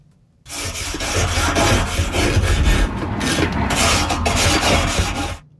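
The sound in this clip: Harsh rasping as someone scrubs a grill by hand with a stiff brush. Continuous abrasive strokes follow a quick onset, run loud and unbroken for about five seconds, then stop abruptly.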